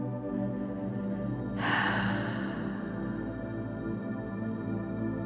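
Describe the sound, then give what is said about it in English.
A deep breath taken in through the nose and exhaled through the mouth during a meditation, heard as one soft, airy rush that swells and fades over a steady sustained musical drone. “Take a full, deep breath through your nose and exhale from your mouth to release excess tension.”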